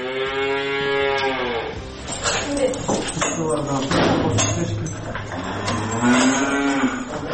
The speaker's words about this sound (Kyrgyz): Так, вот эти у нас коровы, Анжела и Туча, они у нас очень с характером